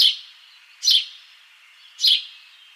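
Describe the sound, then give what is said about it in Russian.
White wagtail chirping: three short, bright, high-pitched chirps spaced roughly a second apart, each a quick burst standing alone against a quiet background. “на самом деле голос трясогузки, мне кажется, похож на чириканье воробья.”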